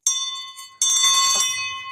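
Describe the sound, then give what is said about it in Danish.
A chairman's bell rings twice to open a mock parliamentary session. A clear, sustained ring is followed by a louder, brighter second ring with a rattly edge, then a slow fade. No talking is heard. “Sådan, lige at give klokken et vrid, som man siger.”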